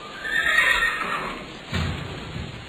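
A horse neighs loudly in a long, wavering whinny, and a lower, rougher breathy sound follows near the end.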